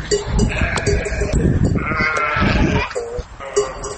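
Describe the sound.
Sheep bleating from a flock of about 200 sheep kept by a herder near Nikšić, Montenegro. Several overlapping wavering bleats, some high and some lower, sound loudly and almost continuously.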